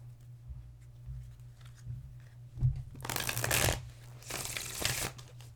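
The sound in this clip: Shuffling of a deck of tarot cards: after a single soft thump, two dense bursts of riffling and flapping cards come in quick succession, each lasting under a second, fairly quiet, with no voices.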